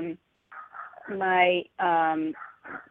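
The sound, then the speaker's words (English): A dog whimpers and whines in the background, giving a few sustained, tonal cries, two of them longer and stronger, between softer short sounds. “I'm sorry if you hear the dog in the background.”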